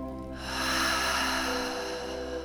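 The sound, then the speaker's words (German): A deep breath taken during a grounding meditation: a long, soft, airy rush swells in after a quiet start and holds steady to the end, over low, sustained background tones. “Atme nochmal tief in die Erde über deine Füße.”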